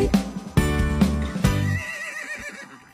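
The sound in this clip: A horse's whinny: a loud, shaking neigh with several quick pulsing bursts in the first two seconds, tailing off into a fainter, wavering high cry.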